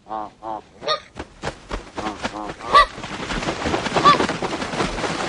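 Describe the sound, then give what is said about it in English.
Migratory birds from a documentary film give a few loud, honking calls in quick succession, then a dense, continuous rushing noise takes over with further calls breaking through it. “That's the sound of the film Winged Migration, a documentary that followed migratory birds.”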